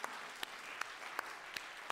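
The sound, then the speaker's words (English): Faint applause from a church audience honoring the children who led the service, a soft, even patter of clapping with a few sharper individual claps standing out at regular intervals. “Can I have some applause for them, too?”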